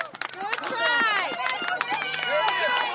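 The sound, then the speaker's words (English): Loud crowd of fans at a hockey playoff game in Southern California, many overlapping shouts and cheers forming a constant roar for a few seconds. “The stands are packed and the fans are loud.”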